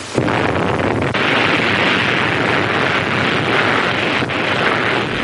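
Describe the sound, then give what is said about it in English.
A nuclear weapon detonation roars in with a sharp onset, then holds a loud, steady, rumbling roar for several seconds without letting up. “When a nuclear weapon is detonated, 5, 4, 3, 2, 1, fire.”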